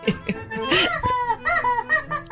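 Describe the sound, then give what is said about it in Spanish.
A World Cup novelty horn that sounds like a chick, giving a quick series of squeaky, chirping honks with rising and falling pitch, fairly loud and closely spaced. “Parece un animalito, man, una corneta. Es la corneta del Mundial.”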